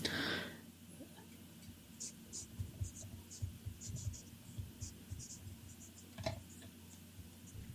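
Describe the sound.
A pen scratches on paper as an answer is written by hand: a series of short, faint strokes in an uneven rhythm, after a brief louder noise at the start.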